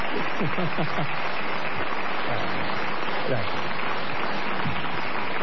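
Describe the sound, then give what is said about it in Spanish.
A live audience applauding at Maipú 555, a steady, dense wash of clapping with a voice speaking over it. “Apláudanse ustedes mismos. Apláudanse ustedes mismos, que acá están.”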